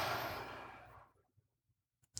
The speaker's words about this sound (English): We're going to take a huge deep breath in and out.